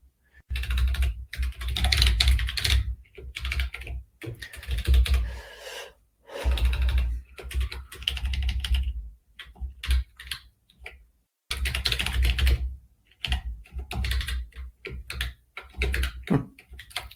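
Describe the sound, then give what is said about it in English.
Typing on a computer keyboard while entering an answer into a shared online document: many rapid clicking keystrokes in irregular bursts separated by short pauses, with no talking. “let's type in”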